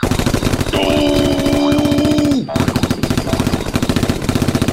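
Rapid machine-gun fire rattles in an even, relentless rhythm throughout. A loud sustained whistling tone rides over the shots for a couple of seconds, then cuts off, and the firing continues alone.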